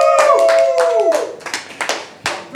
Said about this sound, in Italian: E applauso.